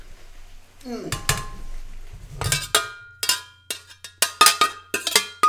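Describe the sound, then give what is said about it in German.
A metal lid clatters onto a cooking pot of simmering liquid, producing many sharp, bright clanks and clinks in an irregular run, with brief talk near the start. “Ich gebe da jetzt mal einen Deckel drauf, damit mir nicht wieder die Flüssigkeit entfleucht.”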